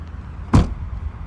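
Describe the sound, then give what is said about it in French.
A car door thuds shut as someone climbs into a taxi in Rome: one short, loud slam over a steady low rumble of the vehicle. “puisque je suis à Rome, je monte dans un taxi.”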